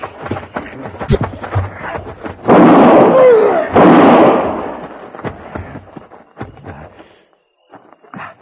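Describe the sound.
Two loud rifle shots ring out in a Western drama, each a broad booming blast with a lingering tail. Short bursts of talk and scattered knocks surround them.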